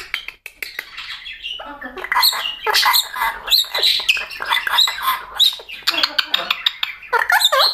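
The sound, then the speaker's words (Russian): A bird gives a busy run of loud squawks, chirps and sharp calls that come almost without pause. “Хорошая птичка. Птичка, хорошая птичка, хорошая птичка”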